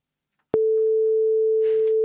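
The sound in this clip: Ringback tone of an outgoing phone call: one steady, unbroken mid-pitched beep lasting about a second and a half, clear and loud, with faint background noise near its end before it stops.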